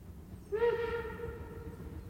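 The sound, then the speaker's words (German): A train whistle sounds: a steady, harmonic-rich tone starts after a short quiet moment and holds to the end, faint, over a low rumbling background. “Ja, ein Zug.”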